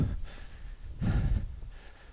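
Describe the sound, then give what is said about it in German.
Heavy panting from a hiker just after a steep climb on a night walk alone through the forest, with a run of deep, rough breaths, the loudest in the middle, and no talk. “Oh, ich schnaufe, weil es gerade echt steil war.”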